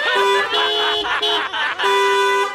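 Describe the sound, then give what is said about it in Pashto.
A vehicle horn in stalled traffic honks in a few long, loud, steady blasts separated by short breaks, with a low background rumble beneath. “اوهو ته دا هارن خو بند کا بی بی چې دا هارن بند کم”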